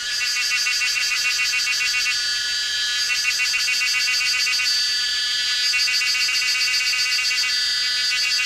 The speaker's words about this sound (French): C'est le son de cigales.